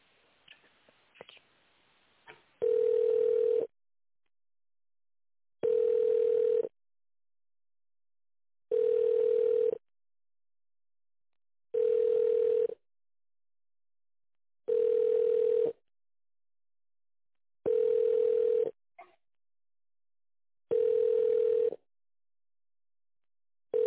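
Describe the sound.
Telephone tones sound while a call is being transferred: seven identical steady beeps, each about a second long, repeat at an even pace with silence between them, after a few faint clicks at the start.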